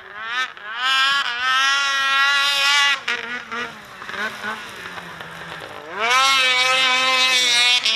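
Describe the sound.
Snowmobile engine revving loudly, a buzzing harmonic whine that climbs and falls in pitch several times, dips through the middle, then surges back up to a strong high rev near the end.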